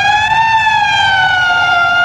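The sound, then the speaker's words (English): A police car siren wails loudly on its own, its pitch climbing briefly at the start and then sliding slowly downward in one long, continuous sweep. “What did you trade the bus for? Police car. A police car? And it really runs great, too.”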